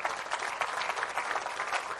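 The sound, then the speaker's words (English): An audience at a church service claps their hands in a steady, dense wash of applause with no distinct individual claps, fairly faint and continuous for about two seconds. “Can you give one more good clap on?”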